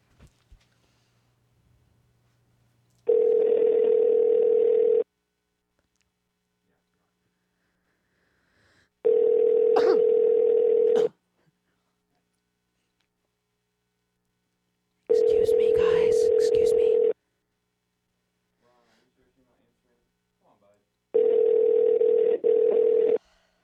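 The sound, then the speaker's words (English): Ringback tone of an unanswered outgoing telephone call: four long, steady, even-pitched tones, each about two seconds, separated by longer silences in a regular on-off pattern. “Well, Ron's not answering. Give me some numbers in your phone that I can call.”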